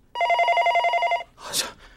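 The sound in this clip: A telephone rings once with a bright electronic trill that lasts about a second, followed by a short, noisy rustle.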